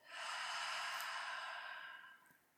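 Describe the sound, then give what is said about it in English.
A full, deep breath taken at the close of a yoga practice, one long airy rush that swells quickly, holds steady, then slowly fades over about two seconds. “take a full breath in and a full breath out.”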